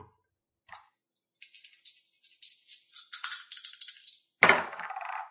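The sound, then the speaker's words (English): Two dice for a tabletop board game rattle in a rapid, uneven run of clicks that grows denser, then end in one louder clatter as they are rolled. “Okay, so just roll two dice and add them together.”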